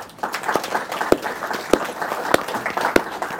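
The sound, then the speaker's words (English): Audience applause at a live tech and engineering event as a speaker joins the stage: continuous clapping at moderate level, with several louder individual claps punctuating it at fairly regular intervals. “Let's give him a hand as he joins us on stage, please.”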